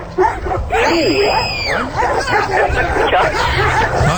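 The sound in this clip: Dog barking and yipping repeatedly, a loud, busy run of sharp barks with short whimpering yips in between, continuing throughout.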